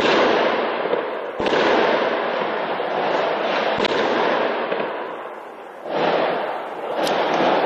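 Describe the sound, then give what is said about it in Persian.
Heavy gunfire during an anti-terror police special operation in Saint-Denis, north of Paris, heard as a continuous loud, rattling roar of shots broken by a few sharper cracks that stand out above the barrage. “از محل عملیات در طول روز صدای تیرپرانی شدید به گوش می رسید.”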